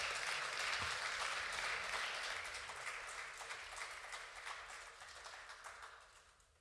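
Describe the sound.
Applause rises from an audience thanking panel guests after a shared conversation: a dense, steady patter of many clapping hands that gradually fades out.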